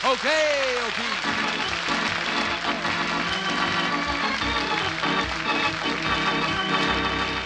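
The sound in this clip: Studio audience applause greets the host of the radio quiz show Double or Nothing: a dense, steady clapping that holds at an even level throughout, with a brief tonal sound at the start.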